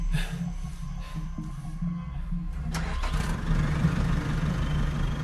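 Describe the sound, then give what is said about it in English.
A backhoe engine runs with a low, steady rumble that grows louder and rougher about halfway through, like revving, with no voices over it. “By now, the backhoe has started going again, scooping, spinning”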